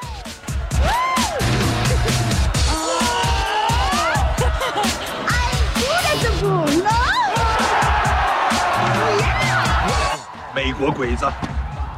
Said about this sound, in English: As she rides it, all the men watch and cheer.